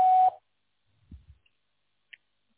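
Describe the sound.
A voicemail system beep: one short, steady, loud electronic tone at the very start, then near silence broken by a couple of faint low thumps and a tiny click.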